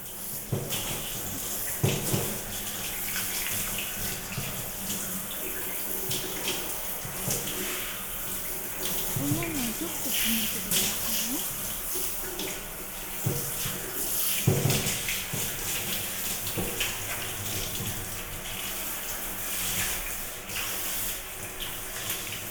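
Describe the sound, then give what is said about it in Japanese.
Steady running water while hair is being washed: a soft, continuous hiss and splash of flowing water, faint and unbroken for the whole stretch. “このまま髪も洗っちゃうしね。いきますよ。”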